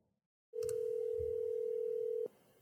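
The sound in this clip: A single long telephone ring tone sounds as a call is placed, a steady, pure mid-pitched hum lasting under two seconds over faint background noise.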